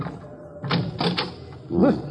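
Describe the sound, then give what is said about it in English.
A door of an old junk shop being tried and opened: a few dull wooden clunks and clicks, moderately loud and short. “Let's try the door.”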